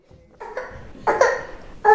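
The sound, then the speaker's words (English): An infant boy covered in pus-filled sores, especially on his ears, whimpers in pain. A few short, strained vocal bursts get louder and come out as a more forceful cry at the end. “infant son whimpers in pain”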